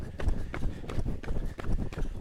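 Running footsteps in a quick, steady rhythm, many soft thudding impacts over a constant low rumbling noise, moderately loud throughout.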